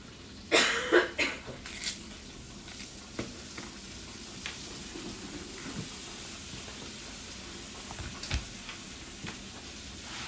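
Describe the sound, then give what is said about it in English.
Bacon sizzling in a pan: loud crackling bursts at the start, then a steady hiss with scattered pops for the rest. “Get up and close so you can hear the ASMR of bacon. This is bacon, guys.”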